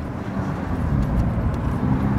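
A car driving at just over 40 km/h gives a steady, low road-and-engine rumble that stays even throughout. No one speaks.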